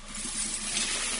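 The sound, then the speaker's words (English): Coins pour out in a radio ad sound effect, a dense, continuous metallic jingling and clatter lasting about a second, bright and hissy. “That's the sound of money being poured down the drain.”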